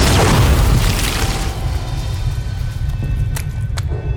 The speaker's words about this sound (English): Artemis broke free of the psychic attack just a moment before the Gene Stealer exploded, showering gobbets of charred flesh over Isiri and the bridge consoles.